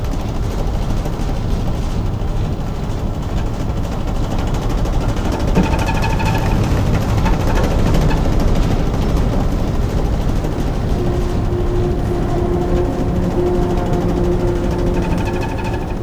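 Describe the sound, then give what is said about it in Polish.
A ship's four bow tunnel thrusters turn the vessel in place, making a loud, continuous mechanical rumble with a droning hum that holds steady and unbroken throughout. “to są boczne takie pędniki, które pozwalają nam na obrót w miejscu lub płynięcie na przykład bokiem. Co widać? I będziemy się obracać.”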